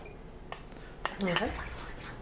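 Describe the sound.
A fork whisking a honey mixture: faint metallic clinks and light scraping, with a brief bit of talk partway through.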